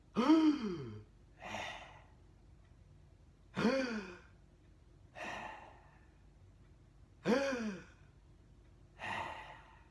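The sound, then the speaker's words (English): People take three deep breaths together, each a loud, slightly voiced gasping inhale followed by a softer sighing exhale, evenly spaced and separated by quiet pauses. “Let's all take three big breaths and think of three good things together.”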